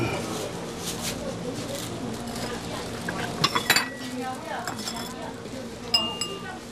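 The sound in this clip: Ceramic bowls and plates clink a few times as they are tapped to test their ring while a buyer shops for a bowl. The chinks are short and bright, with people talking around them.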